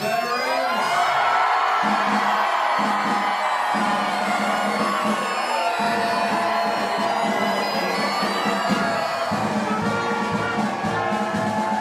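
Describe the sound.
A crowd cheers and whoops nonstop to welcome veterans home, a thick, steady roar of many voices holding at full loudness for about twelve seconds.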